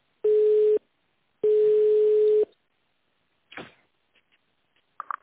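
Two steady, mid-pitched telephone ringback beeps sound while a call is transferred to an internal extension, the second longer than the first. Silence and a few faint clicks follow.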